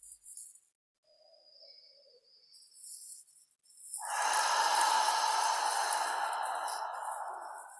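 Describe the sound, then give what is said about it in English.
Deep breathing during a guided relaxation exercise, in through the nose and out through the mouth: faint breath sounds at first, then a long, soft, airy exhale that stays steady and slowly fades, with no talking. “we're just going to start with a few deep breaths. So maybe in through the nose, out through the mouth.”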